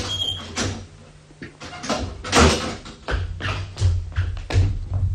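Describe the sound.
A door is opened after a doorbell rings. It makes a series of clunks, knocks and rattles with faint squeaks, uneven in rhythm and fairly loud against a low steady hum.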